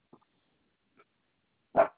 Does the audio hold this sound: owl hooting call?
no